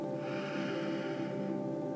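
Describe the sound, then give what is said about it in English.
A slow, deep inhale taken during a guided relaxation breathing exercise: a steady, airy hiss that lasts over a second and then fades, heard over a soft, sustained tonal background. “Let's take a deep breath in together and hold at the top. Deep breath in.”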